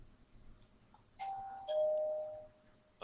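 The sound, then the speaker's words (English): A doorbell rings, a faint two-tone chime whose second, longer note is lower than the first, heard alone over a quiet hum. “That's my doorbell.”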